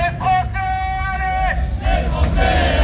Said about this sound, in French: En attendant, les Bleus entendront peut-être les encouragements de leurs supporters les plus fidèles.